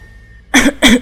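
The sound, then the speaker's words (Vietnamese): Two loud, harsh coughs in quick succession, coming from a room, after a short near-silent moment. “Trong phòng Ngô Nhất Hỏa truyền đến một tràng tiếng ho”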